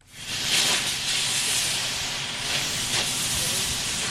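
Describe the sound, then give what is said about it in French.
A professional cutting torch gives a loud, steady roaring hiss as it melts steel to cut a 41-metre, 28-tonne chimney of an old boiler house into four pieces. The hiss is continuous, with slight surges. “Ce que vous êtes en train d'entendre, c'est le bruit d'un chalumeau professionnel utilisé hier pour faire fondre de l'acier et pour découper en quatre morceaux la cheminée”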